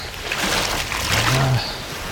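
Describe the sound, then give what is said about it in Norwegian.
River water of the Glomma, brown water at Vesterelva, washes and sloshes as a toe is dipped in, a soft, continuous splashing hiss with slight swells. “La oss stikke tåa nede I glomma her nå. Skal vi se om det...”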